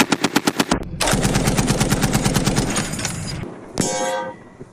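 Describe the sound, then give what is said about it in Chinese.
Rapid machine-gun fire from troops shooting out of vehicles: short bursts of loud sharp shots, then a long sustained rattling volley, a pause, and a final burst, with no voices. “随后，全队依托载具展开乘车射击，持续压制敌方反扑。”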